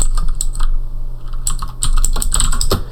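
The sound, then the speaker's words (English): Typing a restore command on a computer keyboard: a steady run of rapid, irregular key clicks, crisp and fairly loud, with no voices. “And then we want to go ahead and type in restore.”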